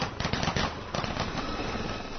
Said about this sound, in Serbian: helikopteri, pucnjava i šok bombe.